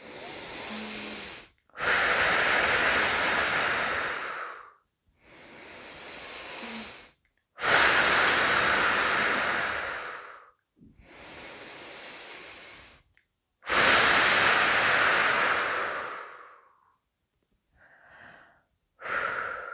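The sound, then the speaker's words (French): Slow, deep breathing during a relaxation exercise: long, airy exhalations alternate with softer breaths in a steady unhurried rhythm, with brief silences between them and no talk. “À chaque expiration, nous nous libérons maintenant de ces tensions. C'est parti.”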